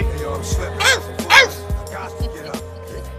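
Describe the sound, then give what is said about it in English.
A rapper's voice imitates a little chihuahua's yapping bark in a song, a few short, sharp, high yelps riding over a thumping beat. “I used to always trip over that dog. That's like a little chihuahua he used to do all the time, huh?”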